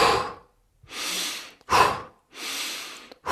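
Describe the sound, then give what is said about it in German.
Demonstrated hyperventilation breathing, air drawn in through the nose and pushed out through the mouth: a few loud, rapid, airy breaths alternate in and out with short pauses, and no talk. “wir machen Hyperventilation, bei dem wir, ich kann es auch mal vormachen, durch die Nase einatmen, also und dann durch den Mund aus.”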